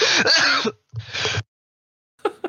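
Coughing brought on by laughing: two raspy, voiced bursts, then a silence and a brief, quieter pair of coughs at the end.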